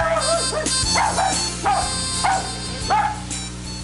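A dog barks in a string of several short, sharp, high yips and barks at an uneven rhythm, fairly loud and with no voices.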